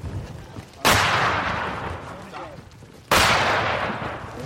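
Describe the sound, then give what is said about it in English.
Mortar shells exploding close by near a front line in a forest, two sharp loud blasts a couple of seconds apart, each trailing off in a long rumbling decay over low background noise. “So we've been now shelled by the mortar, as you can see. That's pretty damn close.”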